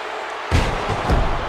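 A wrestler slammed to the mat with a tombstone piledriver during a wrestling match: a sudden heavy thud breaks a near-silence and is followed by a loud, sustained crowd roar, with a second dull impact shortly after.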